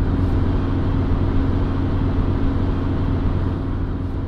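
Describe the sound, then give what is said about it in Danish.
A car driving fast on the way to a shopping centre, heard as a steady, loud, low engine and road rumble that holds evenly throughout with no talk. “mens Hanne kører som død og helvede på vej til shoppingcentret”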